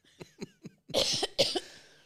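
A wet, harsh cough bringing up phlegm. A few short throaty hacks lead into two loud, rasping bursts, and then the sound dies away with no talk.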